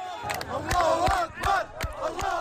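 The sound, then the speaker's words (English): A crowd celebrates freed Palestinian prisoners in Ramallah in the West Bank, with many voices shouting and chanting loudly in a rhythmic surge, punctuated by sharp percussive bursts. “Joyous celebrations in the West Bank city of Ramallah have welcomed the dozens of Palestinians freed as part of the deal between Hamas and Israel.”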